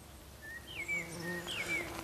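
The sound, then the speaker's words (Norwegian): A large early bumblebee buzzes in a museum garden, giving a faint, steady low hum with a few thin, higher tones drifting over it. “Her var det en humle, gitt. Ja, det er noen store, tidlige humler som er ute”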